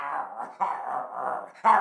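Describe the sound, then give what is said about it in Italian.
A dog growling and barking: a rough, continuous snarl with a brief dip partway through, then a louder burst at the end. Nobody talks. “Non avrà per caso paura dei cani?”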